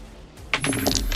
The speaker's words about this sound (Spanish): Sacas tu pistola y tiras un D20 con el modificador de la pistola, que sería +4.